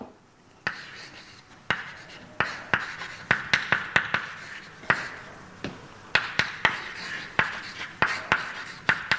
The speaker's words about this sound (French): Je ne sais pas pourquoi j'écris partout.